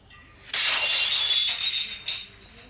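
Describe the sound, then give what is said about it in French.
A dropped plate shatters in a bright crash of tinkling shards that rings on for over a second. A smaller clatter follows near the end. “je crois que j'ai cassé une assiette. Oh, les filles, c'est la troisième fois que vous en faites tomber.”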